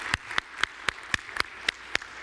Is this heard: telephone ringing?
no